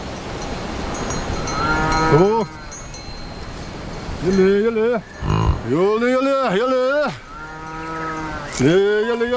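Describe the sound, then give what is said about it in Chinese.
Cattle herd lowing on a high-altitude pasture tended by Tibetan herders: many long, loud moos with wavering pitch, some overlapping, over a steady background hiss. “洛让达旺和家人需要跟随牛群，确保他们能吃到最肥美的牧草”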